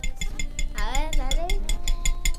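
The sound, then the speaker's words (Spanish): Four eggs are beaten in a bowl, a quick, regular run of light clinking strokes under people talking. “Dos huevos. Tres, cuatro. Los batimos.”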